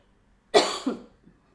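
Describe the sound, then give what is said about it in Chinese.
A single person coughs after a long stretch of talking: one harsh, breathy burst followed at once by a smaller second push, then quiet. “讲了很多话的时候我就开始咳嗽，Sorry， 这个咳嗽把我咳多久？”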